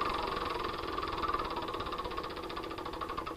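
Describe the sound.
A wheel spins in a computer game show video game played by number keys, giving a steady mechanical whirring buzz with rapid, even ticking that runs throughout at a constant level, with no talk over it.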